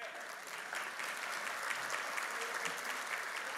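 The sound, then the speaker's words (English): A church audience applauds to welcome returning guests during a sermon, a soft, even patter of many clapping hands that holds steady throughout. “Welcome back. They're back with us. Let's give them a hand.”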